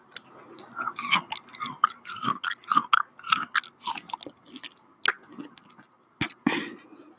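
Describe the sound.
Fruit being chewed during an ASMR eating session: many irregular crunchy bites and wet squishing chews in an uneven rhythm, with no talking.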